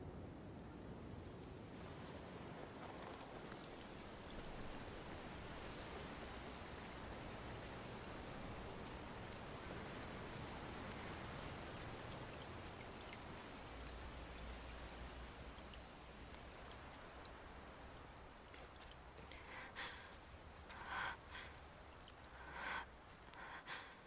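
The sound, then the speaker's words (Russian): Light rain drips through a green forest in a steady, even hiss of drops with no pause, with a few brighter patters standing out near the end. “Небольшой дождь капает сверху.”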